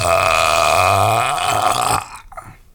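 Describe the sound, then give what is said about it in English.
A long, loud burp: a low, croaking, rumbling belch that holds for about two seconds with a wavering pitch, then breaks off into quieter scattered noise. “You know, my grandpa taught me how to burp.”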